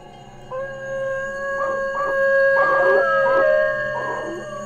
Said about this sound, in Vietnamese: Bỗng con chó từ trên nóc nhà vệ sinh ngưng sủa. Nó chu lên từng hồi. Thật sự là nghe ai oán.